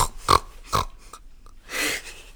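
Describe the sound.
Pigs grunting as they are driven into a stall: a few short, snorting grunts, then a longer breathy snort near the end, moderately loud with quiet gaps between.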